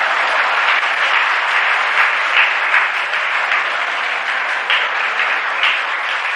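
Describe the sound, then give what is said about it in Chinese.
A standing crowd at a table tennis match applauds: loud, dense, rapid clapping that continues evenly for the whole clip, with no single voice standing out. “再一次博得了全场观众的起立欢呼：中国，庄则栋，庄则栋，中国，庄则栋，中国。”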